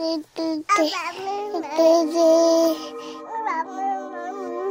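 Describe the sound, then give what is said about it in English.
A baby babbles in a string of sing-song, wordless vocal sounds, with high pitch sliding up and down between short breaks, fairly loud and alone. “Have you ever wondered what your baby's trying to tell you when she babbles?”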